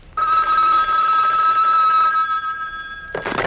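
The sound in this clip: A telephone rings with one steady, bright electronic trill that holds for about three seconds before cutting off.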